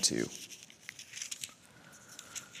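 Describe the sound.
Bible pages rustle as listeners turn to 1 Samuel 22 during a church sermon. A sharp crinkling burst comes first, then a scatter of soft, irregular papery rustles and flicks.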